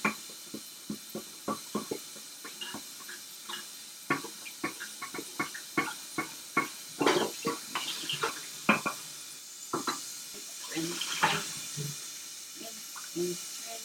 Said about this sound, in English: Rinse. Get all the soap off of the pot. Rinse.